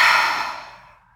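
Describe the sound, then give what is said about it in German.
A single deep breath out through the mouth, taken as a relaxing exercise. The breathy rush is loudest at the start and fades away over about a second, with nothing else heard. “atme erstmal tief durch deine Nase ein und über den Mund aus.”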